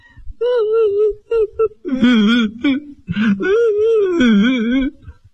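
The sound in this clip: A man and a woman cry together in wavering, sobbing wails, one voice higher and one lower, rising and falling in several loud bursts over about five seconds.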